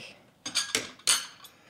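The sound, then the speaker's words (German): Cups, saucers and cutlery clink as coffee is served, a few short bright rattles and knocks spread across the moment at moderate loudness, with no voices. “Oh, da kommt schon ein Kaffee.”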